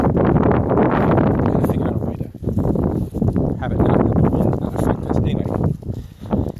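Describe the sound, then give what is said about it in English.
Wind blowing into a microphone outdoors: loud, dense low rumbling and buffeting that surges and dips irregularly without letting up. “I apologize for the wind again.”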